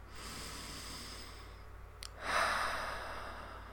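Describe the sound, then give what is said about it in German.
A deep breath drawn into the belly during a guided relaxation exercise: one soft, airy breath swells and slowly fades against a quiet, steady hiss, with no talking. “Und jetzt nimm noch mal zwei tiefe Atemzüge in deinen Bauch.”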